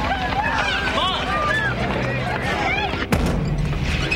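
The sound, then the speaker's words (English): A single gunshot cracks out sharply near the end, cutting through a busy bed of music and commotion. “Carl picks it up and aims. John runs to a door. The shot grazes John's right shoulder.”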